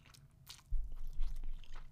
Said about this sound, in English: I'm eating noodles. Eating noodles.